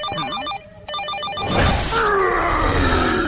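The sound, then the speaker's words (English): An electronic telephone ringtone plays a bright, repeating melodic pattern, with a short break partway through. It then gives way to a loud, noisy rush with a faint sliding tone. “That's just a phone”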